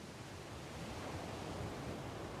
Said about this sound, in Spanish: Nos lleva detrás de la casa, prácticamente al océano.